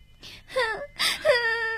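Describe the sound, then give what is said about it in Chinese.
A child cries in a few short, whimpering wails that bend up and down in pitch. The sobbing sobs are fairly loud, with no other talk heard over them. “别哭了”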